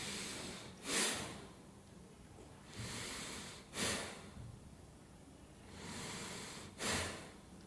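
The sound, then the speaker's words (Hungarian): A person imitates the slow breathing of someone asleep: a few long, soft, hissing breaths, some ending in a short snort-like puff, rising and falling at an unhurried pace with no talk. “Így lélegzik egy alvó ember, körülbelül?”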